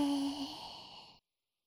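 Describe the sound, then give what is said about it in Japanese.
A single audible exhale during guided breathing in and out, breathy and partly voiced like a sigh, fading slightly for about a second before cutting off into silence. “吸って、吐いて。”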